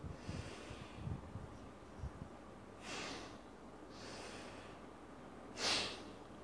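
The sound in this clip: Deep breaths in and out, heard as three airy, hissing breath sounds spaced about a second apart over a faint low background, the last breath the loudest and sharpest.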